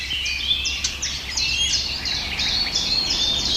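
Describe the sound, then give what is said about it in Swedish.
Blackcaps foraging in a tree give their smacking contact calls, many short, sharp, high-pitched clicks repeated in an irregular series over a faint steady background hiss. “Det som smackar där, det är svarthättans lockläte. De är ute och söker föda och rör sig i trädet också.”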